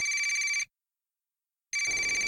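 A telephone rings with an incoming call in a home in the Amazon: a steady electronic trilling ring breaks off, then after about a second of silence the ringing starts again, with no voices.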